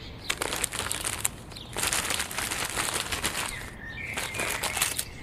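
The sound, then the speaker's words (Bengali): A paper wrapper is unfolded with continuous crinkling and rustling, crisp crackles coming in uneven bursts, with no talk over it. “যাক আপাতত ওই কাগজের মোড়কটা খুলে বল তো জিনিসটা কি”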